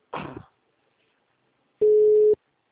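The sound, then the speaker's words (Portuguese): Ringing tone on an outgoing telephone call: a single steady, mid-pitched electronic tone lasting about half a second, preceded by a brief noisy burst and separated by silence. “Aí eu vou ligar para esses números, ó, tá chamando.”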